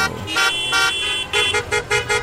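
Car horns honking over road traffic: a series of bright, blaring toots in quick, overlapping bursts, some held longer than others, above a low engine rumble.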